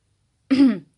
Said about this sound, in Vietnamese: Nàng hắng một tiếng.